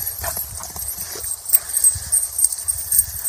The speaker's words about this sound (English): I want you to watch this little video of what it looks like for a calf to leap out of a stall.